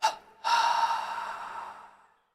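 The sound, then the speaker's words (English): Breathing in and holding during a relaxation exercise: a short, sharp intake of breath, then a longer, airy inhalation that swells and slowly fades into silence. “Inhale again. Hold and tense. Inhale. Hold, tense.”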